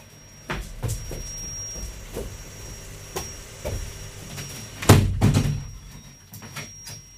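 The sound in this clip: A window being closed, heard as a series of clunks and knocks followed by a louder bang near the middle, then a few softer thuds.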